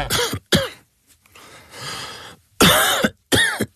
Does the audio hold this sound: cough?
yes